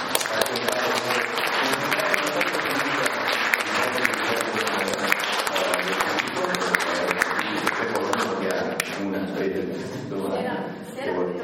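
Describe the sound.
Audience applause at an evening cultural talk: dense, steady clapping from many hands, loud and continuous, easing slightly near the end.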